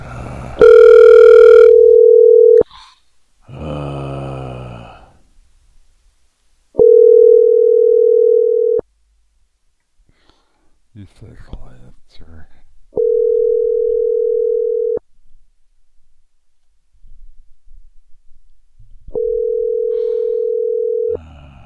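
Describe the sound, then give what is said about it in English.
Telephone ringback tone on an outgoing call: four long, steady, mid-pitched tones of about two seconds each, separated by longer pauses, with a few brief, faint other sounds in the gaps. “It's ringing somebody's phone.”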